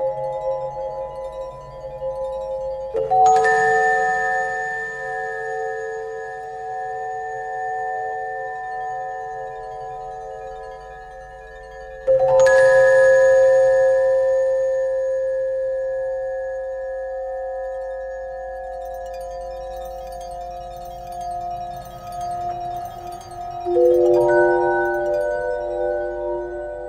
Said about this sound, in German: Und da habe ich versucht, eine, ich sag mal, fast nicht melodische, also eine geräuschhafte, eine klangliche Landschaft zu erzeugen. Und wie das klingt, das hören wir jetzt, die Glasharfe.